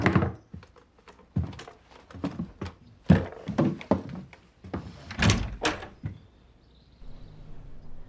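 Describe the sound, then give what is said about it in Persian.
Loud wooden door thuds and knocks come in an irregular series of sharp bangs, some heavy and some lighter, then fade to quiet near the end. “میشه درو باز کنی لطفاً عزیزم؟”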